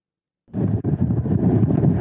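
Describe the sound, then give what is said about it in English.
Strong wind whips across a beach in North Carolina during a hurricane. After a brief silence a loud, continuous rumbling roar cuts in suddenly and stays harsh and gusty. “The wind is whipping stronger than it has in the last 24 hours. It is unbelievable.”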